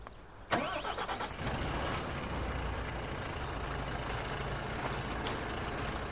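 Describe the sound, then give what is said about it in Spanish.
A truck's engine starts up from the cab. A sharp crank-and-catch burst gives way to a steady, faint, low running rumble that holds to the end. “Este sube a la cabina de su camión y arranca.”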